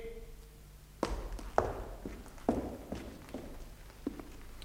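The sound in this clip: Footsteps of someone walking away. Several firm steps fall at an even, unhurried pace over a low, steady background hum.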